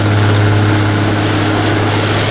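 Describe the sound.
A boat's engine gives a loud, continuous low rumble with a heavy, even drone. There is no talking and no clear change in pitch across the whole stretch.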